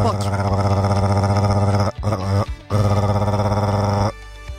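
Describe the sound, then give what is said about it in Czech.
A voice imitates a home coffee machine with a loud, sustained buzzing drone, broken by a short gap near the middle, then resuming before settling into a lower hum. “já umím udělat náš kávovar.”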